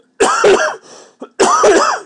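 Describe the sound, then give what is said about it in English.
Two loud, throaty coughs from a person whose throat gets irritated after talking a lot, with a softer rasping breath between them. “This is what happens when I talk a lot. It tends to make me cough.”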